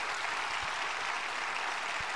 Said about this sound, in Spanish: Me parece que terminan las palabras en honor a Steve Jobs. La gente aplaude.